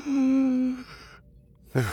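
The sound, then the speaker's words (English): A person imitates a sharp, dramatic gasp, a breathy inhale with a voiced edge lasting under a second, followed by a short quiet and the start of another voiced sound. “I did the inhale thing.”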